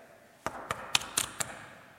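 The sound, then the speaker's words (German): Knocking on a wooden door: five sharp knocks at a steady, even pace, clear and fairly loud against a quiet background. “klopften sie an die Tür”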